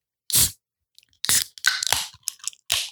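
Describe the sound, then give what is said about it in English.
A beer can being cracked open: one sharp, loud burst, then a cluster of shorter crackling and snapping bursts, with no talk. “But so let's get to the beer. Woo! Crack it.”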